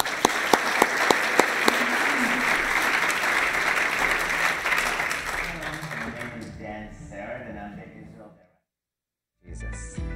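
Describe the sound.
Audience applause welcoming a guest speaker to a chapel service: a thick wash of clapping that stays strong for about six seconds, then tapers and dies away into a brief silence.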